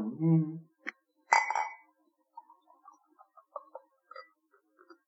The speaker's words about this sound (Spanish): Ahí tenemos la Red Stripe y vamos a probarla, si os parece. Como esto es de botella, ya está.